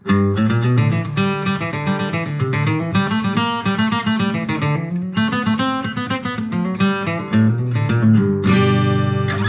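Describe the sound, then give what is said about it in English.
A bluegrass run is flat picked on guitar as a rapid, even stream of crisp single notes, loud and steady throughout, closing on a final ringing note. “Now the bluegrass run that we're going to learn today sounds like this.”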